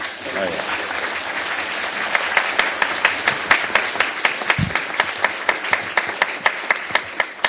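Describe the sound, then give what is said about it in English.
A voice speaks briefly at the start, then an audience claps. The applause settles into an even, rhythmic beat of sharp claps that continues to the end. “So I think we should give a hand to all those people who contributed up here and the people who contributed from the audience. I think they all deserve a big hand.”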